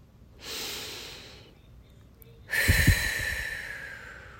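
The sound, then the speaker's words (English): A deep breath is drawn in as a soft, airy inhale, followed after a brief pause by a longer, louder and breathier exhale that slowly fades, heard alone. “Let's start with a deep breath.”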